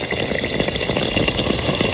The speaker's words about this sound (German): Frittierter Hefeteig mit so einem dicken, weichen Rand und in der Mitte sind die so hauchdünn, also was richtig Feines.